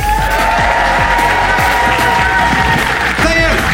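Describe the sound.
A theatre audience at the Leicester Square Theatre cheers and applauds, a loud, dense, unbroken roar of clapping and shouts that holds steady throughout with a brief dip near the end.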